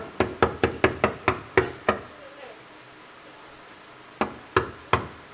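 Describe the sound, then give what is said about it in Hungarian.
Knocking on an apartment door: a quick run of eight sharp raps, a quiet pause of about two seconds, then three more evenly spaced knocks. “Először talán Agárdi Gáborhoz fogok bekopogtatni, hiszen ő mindenről tud.”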